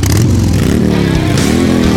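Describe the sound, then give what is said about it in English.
A vivid black 100th anniversary Harley-Davidson motorcycle with a twin cam engine revs loudly and continuously, its deep engine note swelling and dipping in pitch throughout. “The new 100th anniversary Harley-Davidson motorcycle”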